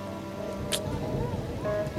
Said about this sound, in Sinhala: මේ වැස්ස නම් අඩු වෙන පාටක් නෑ